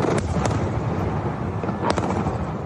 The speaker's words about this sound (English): Beneath their gaze, black smoke rises from airstrikes that are falling across Damascus.